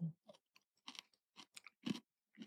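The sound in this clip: Crunchy food being chewed at a meal of chicken and red wine: several crisp, uneven crunching bursts with short pauses between them, moderately faint and free of talk.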